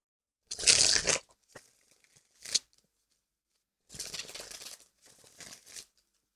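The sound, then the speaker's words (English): Tarot cards being pulled and shuffled make several papery riffling and crinkling bursts separated by short pauses, with no voices. “let's do what we do. Pull a tarot card. See what it says.”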